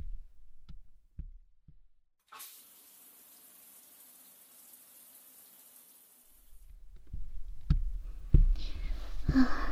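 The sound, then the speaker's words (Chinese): Someone taking a hot shower: a steady, even hiss of spraying water starts abruptly after a few soft knocks, holds for about four seconds and then cuts off, followed by louder low-pitched bumps. “那我快点去洗个澡，要不然一会儿咱们两个人都得饿扁了。洗澡去了。”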